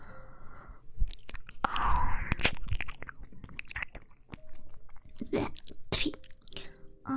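Someone chewing and biting braised eggplant that tastes bad: irregular, soft smacking and squishy mouth sounds with occasional small crunches, quiet and uneven across several seconds.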